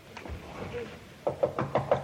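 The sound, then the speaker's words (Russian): Five steady knocks on a door in a staged play, evenly spaced and fairly soft, arriving after a quiet stretch of faint background noise. “Людмила Герасимовна, можно войти? Не отвечает. Ну, постучи хорошенько.”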